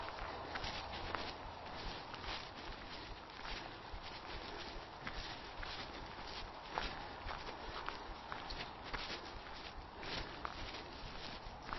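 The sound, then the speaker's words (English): Footsteps of someone walking back down a hill, a faint, steady rhythm of many steps on the ground that continues without pause. “And I'll walk back.”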